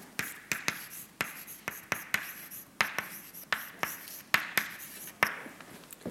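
Writing on a board during a lecture about actin flow: many faint, sharp taps and short scratchy strokes in an uneven rhythm, with no talk.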